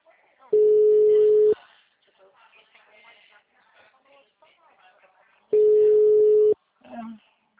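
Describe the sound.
Telephone ringback tone heard while calling numbers from a list: two steady one-second tone bursts separated by a long gap, with faint talk in between and after.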